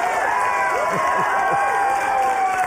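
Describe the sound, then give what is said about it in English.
An audience at a live show cheering and whooping over scattered applause: a steady crowd roar with several shouted yells rising and falling in pitch. “You applauded like that.”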